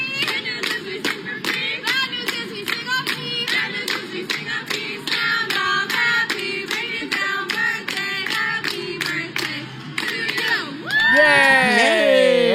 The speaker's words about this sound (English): Can I get a round of applause? Yay.